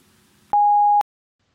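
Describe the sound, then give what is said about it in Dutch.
A voicemail answering machine tone sounds as one steady, mid-high beep lasting about half a second. It stands alone after a faint background hush and is followed by silence. “Laat jouw bericht achter na de toon.”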